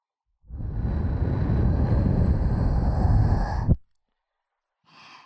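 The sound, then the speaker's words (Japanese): A long, airy breath is blown close into a listener's ear in an ASMR session, lasting about three seconds before cutting off. After a short silence, a much fainter, brief puff follows. “息吹きかけると体よく反応しますね。”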